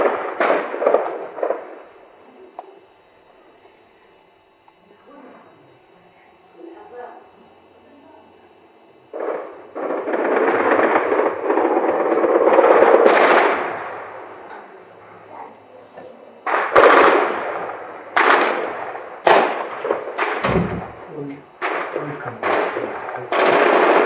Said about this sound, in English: Not really, I'm in the middle of a gunfight.